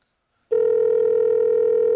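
A steady electronic telephone tone begins abruptly about half a second in and holds at one unchanging pitch, loud and unbroken, as a phone call is placed.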